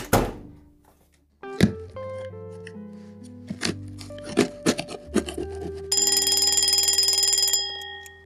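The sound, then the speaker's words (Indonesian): A bedroom alarm clock suddenly ringing: a loud, rapid, rattling bell that holds steady for about a second and a half, after a run of sharp knocks and sustained tones. “Astaga, aku kaget setengah mati. Rupanya jam waker di kamarku tiba-tiba berbunyi.”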